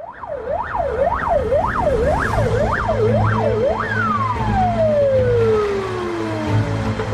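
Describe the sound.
Ambulance siren on streets during a coronavirus epidemic: a loud, rapid wail rising and falling over several cycles, then a single long tone gliding steadily downward, over a low, steady rumble.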